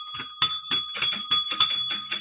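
Bells being rung in many quick, ringing strikes, each bright metallic chime overlapping the last so the tones hang on between hits.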